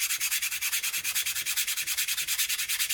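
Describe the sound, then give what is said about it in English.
Sand blocks rubbed together to imitate a train produce a steady, fast, rhythmic hissing scrape, with many even strokes pulsing like wheels on track throughout. “Oh, while we're talking about sound effects, I just want to share how I made the noise of the train at the end. I have some sand blocks, and”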